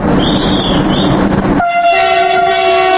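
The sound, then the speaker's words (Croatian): A passenger train departs Sarajevo railway station for Bihać: a steady rumble of rolling wagons, then a loud, sustained horn blast with a bright, even tone that holds to the end. “Prije nešto više od sat vremena, nakon 18 godina, sa Sarajevske željezničke stanice krenuo je voz za Bihać.”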